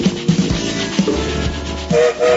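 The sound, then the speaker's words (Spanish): A train whistle sounds as a train starts moving: low rumbling and clatter give way to two short, high, steady whistle tones near the end. “como todos los días el tren se pone en movimiento. Ustedes han escuchado el silbato”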